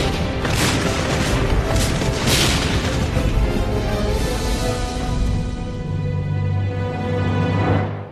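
Cannon fire makes a dense volley of heavy, rumbling booms. The blasts run together loudly and continuously, then cut off at the end.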